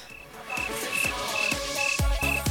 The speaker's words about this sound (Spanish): Ya decía yo que faltaban mis amigos. Los grillos.